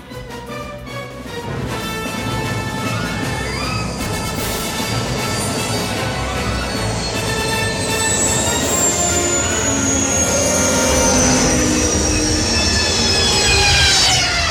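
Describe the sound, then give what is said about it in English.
A sci-fi escape pod landing effect: a rumbling roar swells steadily, layered with high whining tones that slowly sink in pitch toward the end. “But we got to make a landing and pick them up first in our escape pod. So let's go.”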